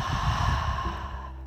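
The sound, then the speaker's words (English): A slow, deep breath, soft and breathy, sounds over a steady tonal drone. The air noise fades toward the end, leaving the drone. “Now I invite you to take a nice deep breath in through the nose and out through the mouth.”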